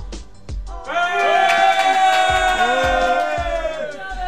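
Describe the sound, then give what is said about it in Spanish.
A group of people in a studio giving a collective cheer, their voices swelling into a sustained shout of many overlapping voices that holds for a few seconds. “Un ruido colectivo en el estudio. A la de tres.”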